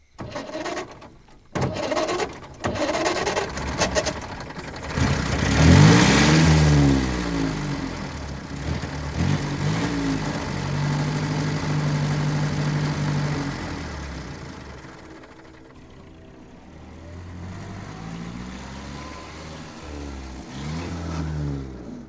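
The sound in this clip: A car starts and drives off. A few short sputtering bursts come first, then the engine revs up with swooping pitch and settles into a long, steady drive. The sound dips, then swells again near the end.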